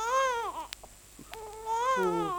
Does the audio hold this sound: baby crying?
yes